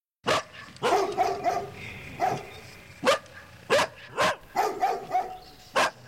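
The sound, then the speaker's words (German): Dogs barking at dusk beside a forest, a long series of sharp, loud barks in uneven bursts, some quick and clustered, others spaced apart, with no talking. “Da höre ich Hundegebell.”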